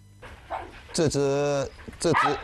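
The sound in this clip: Shiba Inu dogs in a kennel give a few short barks and a long, drawn-out whining yelp, with people talking around them.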